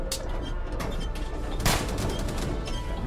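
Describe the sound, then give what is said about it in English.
A bazooka shot in a pinball video game, one sharp blast bursting out of a dense, continuous wash of noisy game sound that stays loud the whole way through. “bring out the bazooka! Well, you just shot a shot and you managed to extinguish the lights.”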